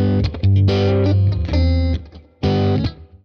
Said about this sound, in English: Like, an electric guitar by itself doesn't sound like anything. It's utterly boring and drab. You know, you get like a, like, there's nothing there. Yes. So typically you get like a, you know, a nice good amp tone.